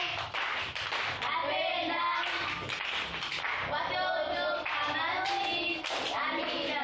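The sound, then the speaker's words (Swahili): Hand clapping for a teacher at a children's church gathering: continuous, fairly steady claps with voices calling out and talking throughout. “Makofi kwa mwalimu wetu.”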